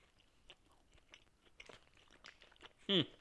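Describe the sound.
Biting into and chewing a muffin-like fruit cake: faint soft rustling mouth sounds lead up to one loud, crisp crunch of a bite near the end.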